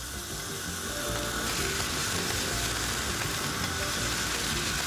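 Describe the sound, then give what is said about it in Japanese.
Oil sizzling and crackling in a frying pan over medium heat as squid and fish cake patties fry, a dense steady hiss with rapid fine crackle throughout and no voices. “最後にフライパンに油を中火で熱して、そこに先ほどの種を並べて4分ほど焼いていきます。”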